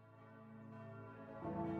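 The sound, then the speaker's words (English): Church bells ringing in Rome near the Vatican: faint, sustained metallic tones with layered overtones, then a fresh, slightly louder strike swelling near the end. “Church bells. It's a musical whose residency never expires, a symphony of alternating sounds and pitches that echo through the streets”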